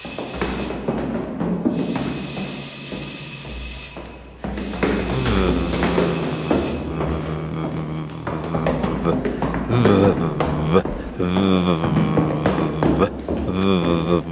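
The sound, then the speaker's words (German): Third bell signal rings before a stage performance, a loud, steady electric ringing in three long bursts with short breaks between them, after which it stops and other sounds with voices follow. “Das war das dritte Klingelzeichen.”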